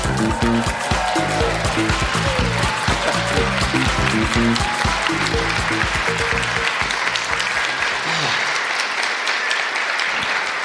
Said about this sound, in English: Good whoops. That's nice, isn't it? Good whoops.